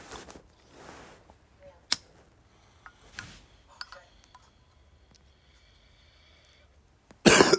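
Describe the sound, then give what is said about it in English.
A bong hit followed by coughing: a few faint clicks and soft airy bursts among near-silence, then a sudden loud burst of harsh coughing at the very end. “Excuse me. Take another bong rip.”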